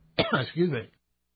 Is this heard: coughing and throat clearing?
yes